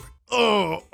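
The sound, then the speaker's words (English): A stomach groaning after eating at a chain pizza shop, rendered as a single short, moaning groan about half a second long with a voice-like tone, heard alone. “Here's the sound of my stomach after eating at a chain pizza shop.”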